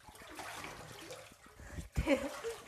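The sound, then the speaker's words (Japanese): Bath water sloshes and swishes as a hand stirs it after a handful of coarse salt goes in, a steady wet churning that ends in a louder splash. “手でかき混ぜているこの姿なんと滑稽なんでしょうって感じですが棒がないので仕方がないですね”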